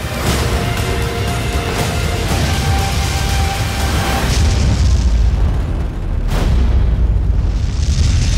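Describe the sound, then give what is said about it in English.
Deep booms and explosive rumbles from a trailer for a space survival film about an astronaut left on Mars after a fierce storm form a loud, dense, continuous wall of sound, easing briefly near the end before another heavy hit. “you were just listening to the trailer for The Martian, and the story is as follows. When astronauts blast off from the planet Mars, they leave behind Mark Watney, presumed dead after a fierce storm.”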